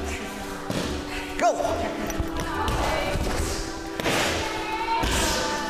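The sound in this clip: A punching bag is hit during a partner workout, giving a few heavy, dull thuds spaced irregularly, with people talking and shouting throughout.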